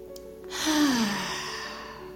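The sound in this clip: A deep breath taken during a guided morning breathing exercise: one long, breathy exhale like a sigh, softly voiced at first and then trailing off as airy noise.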